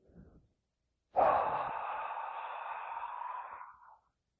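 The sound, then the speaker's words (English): A long, breathy exhalation, heard alone: it starts abruptly, holds steady as an airy hiss for about three seconds, then fades out. A brief faint breath comes just before it. “Then, the beginning of an exhalation.”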